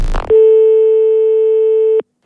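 A telephone busy signal sounds as one long, steady, clear tone of nearly two seconds, starting after a brief burst of noise and cutting off abruptly.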